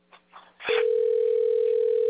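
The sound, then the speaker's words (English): A telephone dial tone sounds while a call is being placed. After a few faint bits of noise and a brief burst, a loud, steady, unbroken single-pitched hum holds to the end. “All right, I gotta get the number straight first. I'm calling somebody's wife or something.”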